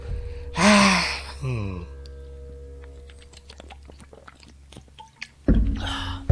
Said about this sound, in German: Und wollen wir erstmal was trinken, wir beiden?